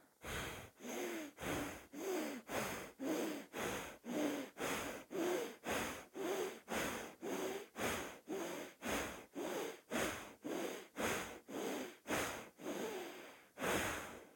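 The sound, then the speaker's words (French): Forceful rhythmic breathing through the right nostril during a yoga breathing exercise, with the left nostril held closed by a finger. Many sharp, evenly spaced airy pulses repeat at a steady, rapid pace with no talking. “Et sur une quinzaine de respirations, expirez et inspirez fortement avec la narine droite.”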